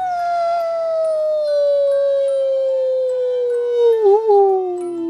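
An imitated wolf howl: a single long, loud howl that slides slowly downward in pitch, with a brief waver near the end before it trails off.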